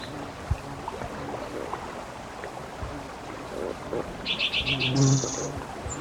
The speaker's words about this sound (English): Yellow Warbler, I believe.